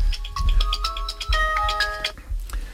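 A phone ringtone plays a short electronic melody of bright, stepping tones over a low rumble and stops abruptly near the end.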